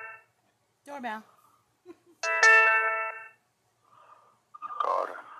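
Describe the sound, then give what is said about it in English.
Doorbell ringing in a house: a bright, ringing chime with a full, sustained tone lasting about a second, set between brief scattered sounds and short voice fragments. “Doorbell.”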